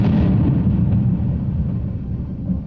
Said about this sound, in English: You grabbed your axe and pick and 64 TNT. You exploded her house.